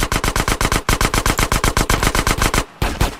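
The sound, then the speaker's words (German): Loud automatic gunfire: a long rapid burst of many evenly spaced shots, a brief gap, then the firing resumes. “Ja, erstmal in den Arsch schießen.”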